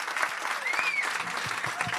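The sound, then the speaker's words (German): Applause from an audience at the end of a live show: dense, steady clapping that continues without a break for the whole two seconds, with no clear talk over it. “Applaus”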